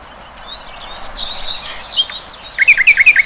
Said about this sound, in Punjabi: ਮਿੱਠੀਆਂ ਮਿੱਠੀਆਂ ਪਿਆਰੀਆਂ ਪਿਆਰੀਆਂ ਆਵਾਜ਼ਾਂ ਜਿਹੜੀਆਂ ਜੀ ਚਿੜੀਆਂ ਦੀਆਂ ਤੁਸੀਂ ਸੁਣ ਰਹੇ ਹੋ